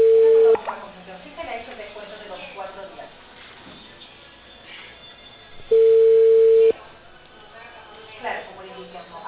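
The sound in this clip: Telephone line tones after a call is hung up: two steady mid-pitched beeps, one at the start and a longer one later, with talk between them over a narrow phone line.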